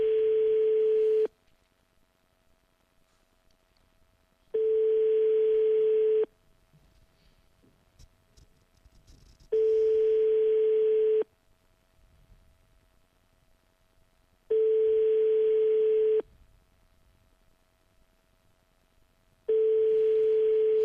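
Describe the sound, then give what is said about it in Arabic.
Telephone ringback tone on an unanswered call: five long, steady mid-pitched beeps, each about a second and a half, separated by longer quiet gaps. “كاينش جواب؟ الهاتف يرن.”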